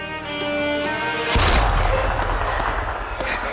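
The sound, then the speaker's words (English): Gunshots: a sudden loud boom cuts in, followed by a lingering crackle and rumble that stays strong until the end. “No, that's shots.”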